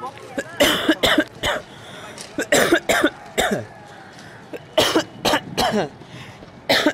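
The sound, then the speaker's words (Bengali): Persistent, stubborn coughing that will not stop: many loud, harsh hacks come in quick clusters with short breaks between, some sounding throaty like throat clearing. “বাবারে, বেশ ঝামেলা শুরু হয়েছে দেখছি, কাশিটা যেন থামছেই না।”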